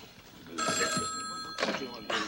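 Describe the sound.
A telephone rings with a steady, high electronic tone that lasts about a second, followed by a couple of shorter bursts, while people talk over it.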